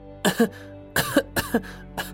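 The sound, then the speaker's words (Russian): Dry coughing from a woman with a cold, with a few harsh bursts in quick succession, some doubled, spread over a couple of seconds. “Нанохоши кашляла, вся съежившись и завернувшись.”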